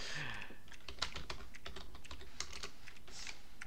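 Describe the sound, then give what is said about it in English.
Keys clatter on a computer keyboard in a fast, continuous run of light clicks, fairly faint and steady throughout with no clear pauses. “I just typed the name of the city”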